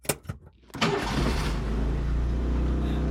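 A right-hand-drive car's diesel engine starts: a few light clicks, then a crank that catches into a steady, loud, low rumbling idle.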